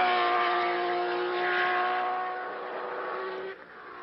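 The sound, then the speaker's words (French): Engine roar of an AGS Formula One car accelerating during pre-season tyre testing at the Jacarepaguá circuit near Rio: a loud, steady, buzzing drone with strong harmonics that dips briefly near the end. “Au volant de son AGS, c'est une petite écurie française, Philippe Streff accélère.”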